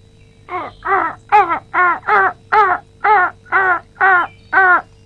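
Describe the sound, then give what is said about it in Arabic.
Harsh crow caws ring out in a long, steady series of loud, evenly spaced calls, each a short rasping burst, with no talk over them. “هذا الغراب هو نجم؟”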